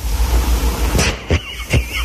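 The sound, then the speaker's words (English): A truck stops nearby: a steady vehicle rumble broken by three sharp, hissing bursts. “trucks keep stopping in here.”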